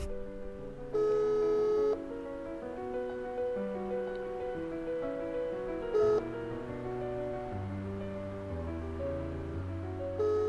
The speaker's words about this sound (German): Das scheint nicht zu funktionieren.